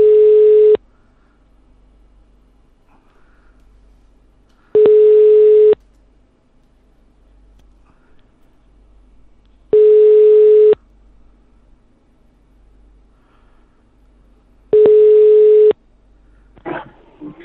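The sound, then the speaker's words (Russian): Ringback tone on a phone line while calling a guest for a live show: four steady mid-pitched beeps, each about a second long and spaced roughly five seconds apart, with quiet line hiss between and a brief noise at the end. “Давайте еще раз наберем этой дырки нахуй, которую мы пригласили на прямой эфир.”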